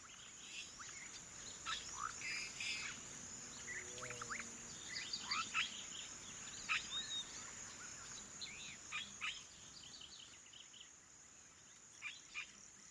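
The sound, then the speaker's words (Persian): Outdoor nature ambience of crickets and birds: a steady high cricket drone runs throughout while many short bird chirps and whistled calls come and go over it, with no voices. “ما میتونیم برای جایگزین کردن اثرات آلودگی صوتی ناشی از این صداهای مصنوعی که اطراف ما رو احاطه کردن به صدای طبیعت گوش کنیم.”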